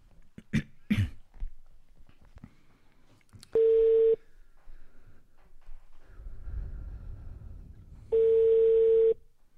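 A telephone call is dialed and rings out, heard as two long, steady ringback tones separated by a pause. A few coughs and clicks come first, with faint low rumbling between the tones.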